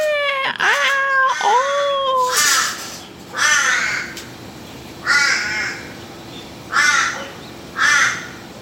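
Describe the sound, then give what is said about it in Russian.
Australian crows give wailing, cat-like yowling calls: a drawn-out harmonic cry at the start, then several shorter, loud cawing wails spaced a second or so apart. “Как кричат австралийские вороны. Мне кажется, это помесь мартовского кота и маленького ребенка. А я считал, что это одно и то же. Они кричат так...”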